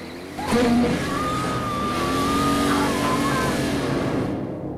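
A car engine roars steadily as the car Christine tears ahead in a chase, bashing her bodywork and burning rubber from her tires. A thin high whine rides over the engine's sustained drone.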